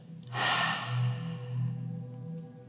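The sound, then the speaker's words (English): A forceful lion's breath exhale with the tongue out, Simhasana yoga breathing: one long, loud, breathy rush of air that bursts in sharply, carries a low voiced rumble, and slowly tapers off. “Simhasana, lion. We're going to inhale. Hold the breath. And then stick out your tongue and go.”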